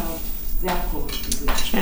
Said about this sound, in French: Prends cette cuillère, elle est propre. D'abord, t'as une cuillère là-bas.